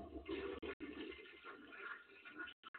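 A toilet flush sound effect, a fairly faint rushing swirl of water that cuts out abruptly a few times toward the end.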